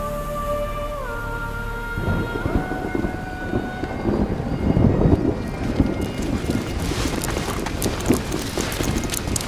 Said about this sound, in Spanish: ¡Corre, corre que te mojas! Joder, es que está diluviando, macho.